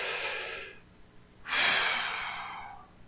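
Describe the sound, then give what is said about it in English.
A person breathing, heard as two soft, airy breaths: a shorter one first, then after a brief lull a louder, longer rush of air that slowly fades. “It's like, you just breathe in.”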